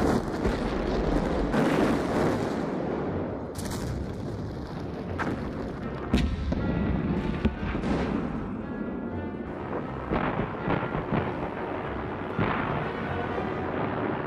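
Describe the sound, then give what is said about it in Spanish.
Artillery barrage from about 1,200 German guns opening the 1916 battle of Verdun against French positions: many heavy booms and cracks at irregular intervals over a continuous deep, rumbling roar. “21 de febrero de 1916, las armas del príncipe heredero desatan un huracán en las posiciones francesas.”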